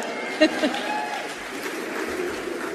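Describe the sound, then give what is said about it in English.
A crowd's low rumble follows a speech comparison, a steady wash of murmuring audience noise that opens with a couple of brief sharper bursts. “You can kind of hear a little under rumble there that maybe even there before that crowd, they kind of realized that wasn't so great of a comparison.”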